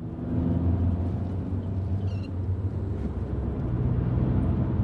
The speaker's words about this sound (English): drives her car along residential streets.